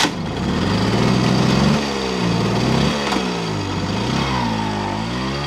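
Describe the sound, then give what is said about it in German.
A moped engine revs steadily while riding in circles on a market square, its loud buzzing note repeatedly rising and falling in pitch as the throttle changes, with no talk. “fährt mit seinem Moped auf dem Marktplatz im Kreis”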